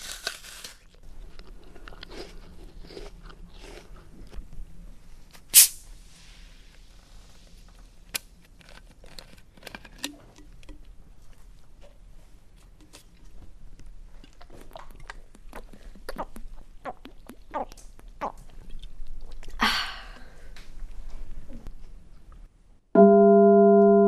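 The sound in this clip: Biting and chewing an apple: a few sharp, crisp crunches stand out over a run of softer, steady chewing noises, with a short tonal sound at the very end.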